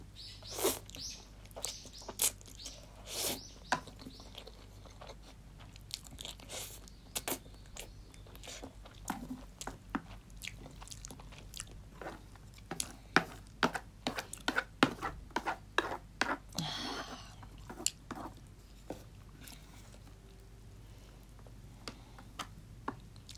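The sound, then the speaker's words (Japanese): Moist chewing and smacking as someone eats large mouthfuls of food coated in too much thick sauce. Many faint, irregular clicks and ticks of the mouth run throughout, with no talking. “まあいいや、食べよう。もうあともうちょいでなくなる。やっぱ一口が大きいから意外とすぐなくなる。”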